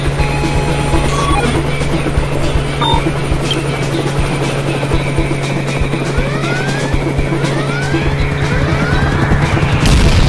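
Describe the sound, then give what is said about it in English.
A helicopter pursuing a fleeing motorbike, a loud steady rotor drone with a low throbbing hum throughout, overlaid with whooshes, rising electronic swoops and scattered crashes, and no clear speech. “I don't know if I can get us away from that helicopter.”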